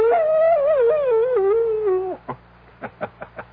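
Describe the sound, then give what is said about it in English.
A wolf howling: one long, loud, wavering tone that drifts slowly and drops sharply at its end. A run of short, quieter yips follows at a steady pace. “And the wolf is not only a fascinating creature, he also does something wonderful for all lovers of mystery stories. He makes this chilling sound.”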